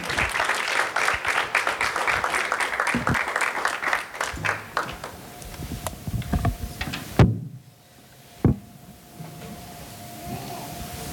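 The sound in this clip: Audience applause welcoming two speakers: dense, lively clapping for about five seconds that gradually thins and fades, followed by two dull knocks in the quieter stretch.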